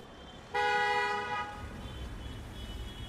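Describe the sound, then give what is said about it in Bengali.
A car arriving, sounding one short, bright horn toot that lasts about a second over a low, continuous road rumble, which carries on faintly after the horn stops. “একটা গাড়ির আওয়াজ পাওয়া গেল”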